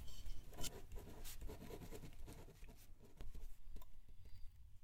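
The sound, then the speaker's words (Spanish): A pen scratches letters onto a sheet of paper while a letter is written, with faint, irregular strokes and small taps in a quiet setting. “Entre recuerdos, traza cada letra.”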